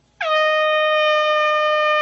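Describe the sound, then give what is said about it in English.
A single loud air horn blast starts abruptly and holds a steady, brassy tone for about two seconds. “What's an air horn? Air horn, yeah. Don't want to be awakened.”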